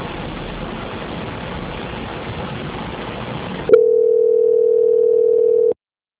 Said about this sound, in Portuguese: Agora eu vou pedir que o senhor aguarde na linha, vou estar transferindo para a auditoria, onde darão continuidade à sua contratação.